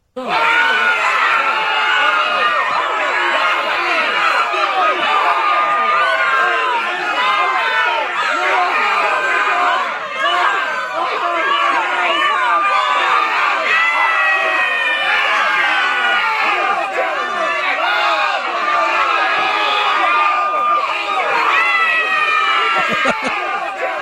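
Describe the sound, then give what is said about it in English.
A terrified crowd screaming, many voices shrieking and wailing over one another in a dense, loud, unbroken wall of sound that holds steady for the whole span. “That's a terrified crowd. That's what that was. That was terrified crowd.”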